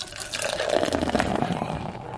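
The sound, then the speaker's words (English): Beer poured out onto the floor makes a continuous splashing, gurgling stream of liquid, steady and moderately loud for about two seconds with no voices. “I'll just pour them all out onto the floor.”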